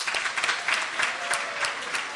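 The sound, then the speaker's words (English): Audience applause for a presenter named Syamananda, a dense, steady patter of many hands clapping at an even level throughout, with no one speaking over it. “I would request all of you to encourage Syamananda by giving him a roaring applause.”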